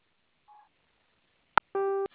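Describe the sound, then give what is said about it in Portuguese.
A telephone keypad tone sounds briefly and faintly as zero is pressed. A sharp click follows, then a louder, buzzy electronic beep on a phone line, with no voices. “Para concluir a liberação, aperte o zero e fale com um atendente.”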